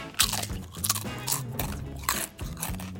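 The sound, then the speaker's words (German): Crisp crunching of potato chips being eaten, with several sharp bites followed by quick, irregular chewing crackles, fairly close and loud, with no talking. “Holst du die Chips gerade, die du isst?”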